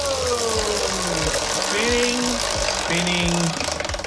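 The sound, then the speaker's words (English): A prize wheel spinning to choose a quiz category, its clicker making a fast, continuous loud clatter that runs steadily throughout and thins out slightly at the very end. “do you want a big spin or a little spin here on the wheel? Big spin. All right, big spin to choose the category here.”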